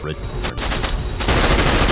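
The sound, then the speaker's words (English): Gunfire from a semi-automatic revolver: loud, sharp reports follow one another rapidly and blur into a dense, continuous crackling roar. “This is a semi-auto revolver! Good shot!”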